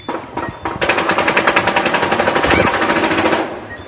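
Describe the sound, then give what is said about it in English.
Automatic gunfire rattles through back alleys and corridors in Beaufort, a loud, dense stream of rapid shots that runs unbroken for about two and a half seconds after a few quieter opening reports, then cuts off. “automatic gunfire rattling the back alleys and corridors of Beaufort.”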